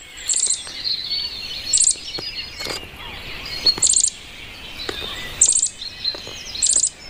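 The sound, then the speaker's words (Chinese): Bluebird chicks calling as they leave their tree hole: high, thin chirping in about five short bursts at a fairly even rhythm, with no voices. “雏鸟一天天长大，出生三周后，雏鸟钻出树洞，”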